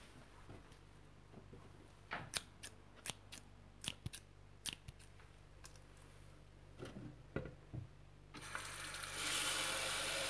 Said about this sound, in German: Schneidet die Kresse ab